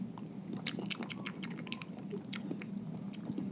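Small wet mouth clicks and smacks as someone licks and tastes a peppery long-pepper spice, many quick faint ticks running steadily over a low hum with no talking.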